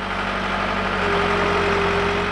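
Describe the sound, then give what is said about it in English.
Steady, low engine rumble from tractors clearing debris from a collapsed hillside on the edge of town after torrential summer rains. The continuous idling drone holds level throughout, with no voices. “On the edge of town, tractors are clearing the debris from one of those catastrophes.”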